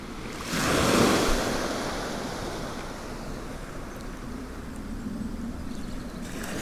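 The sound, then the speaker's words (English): Surf washes onto the beach at Combe Martin on a calm, nearly windless morning, with one fuller wave surging early and then a steady, soft hiss of water continuing alone to the end. “I'm on the beach at Combe Martin.”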